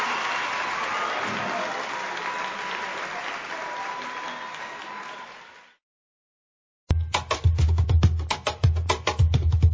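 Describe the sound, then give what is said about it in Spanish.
Sustained audience applause, a dense and fairly loud crackle that slowly fades out after about six seconds, followed by a short silence and then an unrelated, louder sound with sharp percussive onsets. “aplauso para Jimena Sarañana”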